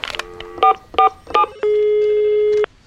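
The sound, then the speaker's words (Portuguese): A telephone being dialed to call an accountant: three short, bright keypad tones in an even rhythm, followed by one long steady tone that holds for about a second before cutting off. “Deixa eu ligar pro contador.”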